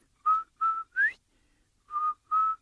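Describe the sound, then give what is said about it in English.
A person whistles to imitate a turtle's whistle in a Cherokee story. Five short, clear notes: three quick ones, the third sliding upward, then a pause and two more level notes. “if you're out in the woods or out there and out in the field, if you hear this beautiful whistle,”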